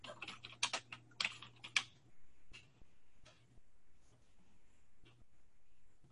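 Typing on a computer keyboard while looking something up: rapid clusters of sharp clicks come first over a faint low hum, then slower, scattered keystrokes follow.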